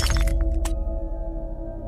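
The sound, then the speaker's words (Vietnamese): A mirror shattering when struck, a loud burst of breaking glass with sharp crashes in the first second, followed by a steady low drone that carries on after the glass falls silent. “Bộp, bộp, cho đến khi choang, là tiếng tấm gương đã bị vỡ.”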